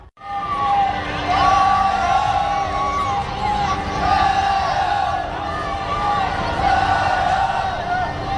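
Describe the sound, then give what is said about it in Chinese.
Football fans in a stadium roar and chant in support of the China team's players during the entrance ceremony before a match. The noise is loud and continuous, with rhythmic chanting swelling and easing above a broad wash of crowd noise. “在入场仪式过程中，我们可以清晰地听到现场球迷为中国队球员的加油声，既是对晋级世界杯的褒奖，也是对本场比赛的期待。”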